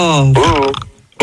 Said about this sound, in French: ton homme il vient de roter aussi à l'instant